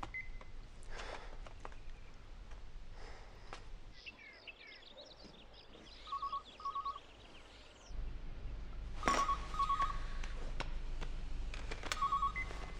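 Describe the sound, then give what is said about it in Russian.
Faint telephone call being placed: a quick run of keypad dialing beeps, then repeated paired ringing tones recurring at intervals over a hiss of background noise. “кому-то звонит.”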